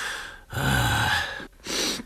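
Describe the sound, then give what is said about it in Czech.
Someone sniffles through a runny nose: a few long, rough nasal inhales and snorts with short pauses between them. They are fairly loud and heard alone, without talk. “Nefuňo, vysmrkej se. Nemáš kapesník?”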